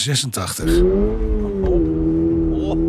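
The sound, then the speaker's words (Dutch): A new Toyota GR86 accelerates with a steady, tonal engine drone that climbs slightly in pitch and then holds. Brief voices come just before it. “Straks gaan we rijden. De nieuwe Toyota GR86.”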